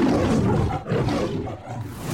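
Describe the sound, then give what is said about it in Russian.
A lion roars, the big cat used in a film studio's logo intro: one deep, rough, sustained roar that holds steady and loud for about two seconds, alone with no talk. “В разное время в заставках «Метро Голден-Майер» снималось семеро разных львов, а с 2022 года живого хищника заменил цифровой двойник.”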